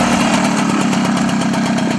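A historic postal motorcycle with a sidecar: its engine runs with a loud, steady drone and a rapid, even putter throughout, with no talking.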